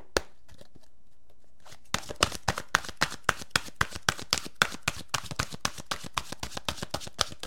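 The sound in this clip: Oracle cards are shuffled in a long run of many crisp, rapid snaps with a steady rhythm, starting after a quiet opening.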